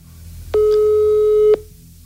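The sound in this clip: A telephone line tone sounds as a call is being placed: one steady, mid-pitched beep lasting about a second, heard alone over faint background hiss.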